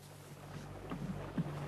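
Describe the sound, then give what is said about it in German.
Soft wash of water and waves around a sailboat out on a lake, faint and steady with light wind noise and a couple of small splashing accents, no voices. “Oh, hörst du das Wasser? Schau mal die Wellen und unser Segel.”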